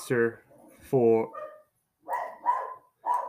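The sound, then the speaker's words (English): A dog barks several times in short, sharp bursts with brief pauses between them, moderately loud and with nothing else heard alongside. “Once again, the dog barking is still there, which I just simply can't control it since I'm not in the room.”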